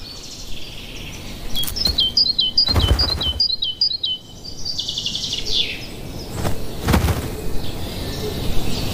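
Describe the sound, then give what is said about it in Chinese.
Great tit calling: a quick series of short, high chirps rises above a steady background hiss, with a few broad, noisy bursts of sound in between. “这只大山雀十分喜欢西方袍脱落的毛，它可以用这些毛来筑巢，”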